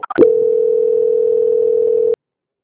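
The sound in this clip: Steady telephone line tone while a call is being transferred. A few brief clicks come first, then one continuous mid-pitched hum that holds evenly for about two seconds before cutting off abruptly into silence.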